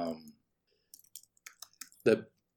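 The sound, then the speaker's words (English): Keyboard typing comes through as a few faint, irregular keystroke clicks in a short quiet gap, with a person talking just before and just after the clicks. “I'm typing while talking.”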